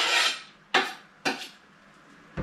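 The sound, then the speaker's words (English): A utensil scrapes against a bowl as garlic is added into a stock pot: one longer rasping scrape, then three short, sharp scrapes separated by quiet gaps. “and some garlic. And that's actually what's in this bowl here. So I'm going to add this into the stock pot here.”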